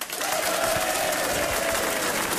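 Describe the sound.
Audience applause welcoming a guest introduced on stage at a comedy show: dense, steady clapping from a crowd fills the whole stretch at an even level, with no single claps standing out.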